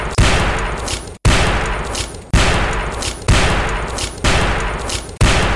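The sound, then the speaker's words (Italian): Shotgun blasts ring out on a crowded video set in Brooklyn, six loud, heavy cracks at a steady pace about a second apart, each one fading in a long, rough tail before the next shot hits. “Improvvisamente qualcuno apre il fuoco e scarica un numero imprecisato di fucilate sui presenti.”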